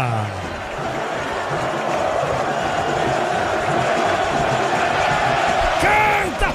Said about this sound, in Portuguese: Sobe som da Vila Belmiro, é festa do torcedor santista!